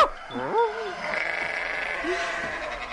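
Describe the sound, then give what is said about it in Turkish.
Sheep flock bleating as the animals scatter toward the edge of a lodge garden: a few wavering, nasal bleats rise and fall in pitch near the start, and another comes later, over a steady low background hiss. “Koyunlar da her tarafa dağıldılar. Ta tekkenin bahçesinin kenarına kadar gitmişler.”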